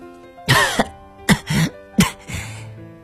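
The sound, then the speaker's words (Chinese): An injured, bleeding woman coughs three times in harsh, rasping fits on dusty ground. Each fit is a loud burst followed by rougher throat-clearing noises. “她不断地咳嗽着”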